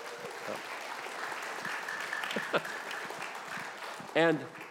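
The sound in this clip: Audience applause from a church audience: a steady, fairly quiet wash of clapping that runs through the whole stretch, with a brief voice rising over it near the end.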